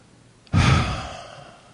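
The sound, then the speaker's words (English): A group takes one deep breath together during a guided prayer: a single breathy rush that starts abruptly, then slowly fades into a long, soft exhale, with no talking. “Everybody take a breath.”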